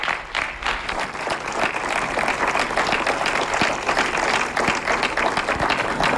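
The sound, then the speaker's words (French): Audience applause thanking a guest at a school event, a dense, steady burst of clapping from many hands that stays loud and even for about six seconds, with no talking over it. “je crois qu'on peut une dernière fois vous applaudir parce que ça a été très fort.”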